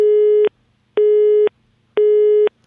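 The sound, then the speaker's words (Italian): Telephone busy signal on a call that will not connect: three loud, steady, low-pitched beeps, each about half a second long, separated by equal gaps of silence, with no other sound. “Niente. Vabbè, è occupato.”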